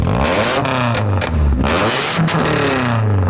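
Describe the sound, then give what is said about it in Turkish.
A car engine with a loud, excessive aftermarket exhaust revs hard during a traffic inspection, its loud, continuous roar swinging up and down in pitch as the throttle is blipped repeatedly. “Gaz verelim.”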